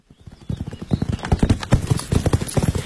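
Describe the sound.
Horse hooves clip-clop loudly as a rider travels on horseback out into open countryside. The quick, uneven hoofbeats repeat steadily throughout.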